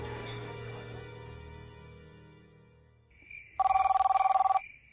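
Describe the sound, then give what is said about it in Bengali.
A telephone ringing at night: a single rapid, trilling electronic ring lasting about a second. It follows a fading, sustained low tone. “উফ, এই মাঝরাইতে আবার কেডায় phone করছে।”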